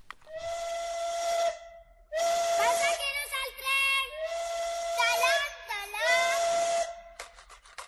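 A steam train whistle in a children's song about a little western train sounds in several long, steady, tonal blasts, rich in harmonics, with breathy hissing between them.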